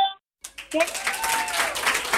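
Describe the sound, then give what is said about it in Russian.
An audience gives steady applause for a young caller congratulating teachers. The clapping begins after a brief silence and continues densely, with a voice heard over it. “И мы все дружно аплодируем Варе из Москвы.”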